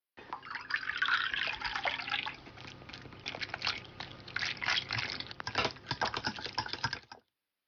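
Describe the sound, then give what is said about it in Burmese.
Water, about 100 ml, poured into a bowl of flour for dough: a steady splashing, crackling pour that runs for about seven seconds and then stops abruptly. “ကြုံမုတ်ထဲကိုရေ 100ml ထည့်ရမှာပါမုံအနှစ်တွေအနေတော်ဖြစ်ဖို့အတွက်ရေကိုတိတိကျကျချိန်ပြီးထည့်ဖို့အရေးကြီးပါတယ်”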